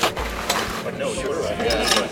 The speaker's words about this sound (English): I'm hooking the clamp to the carpet so the machine can pull it up.